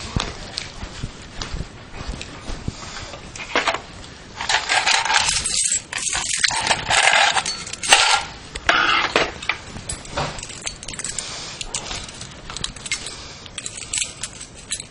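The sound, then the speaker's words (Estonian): Keys jangling in irregular bursts of bright metallic clinking and rattling, loud at moments, with brief quieter gaps between the shakes. “Mis need on? Need on võtmed.”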